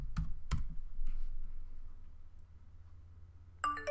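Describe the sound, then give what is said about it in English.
Faint computer keyboard clicks as a password is typed during a software install. A few sparse keystrokes come first, then quiet, and a short electronic tone sounds at the very end. “I can click several buttons. I have to provide password.”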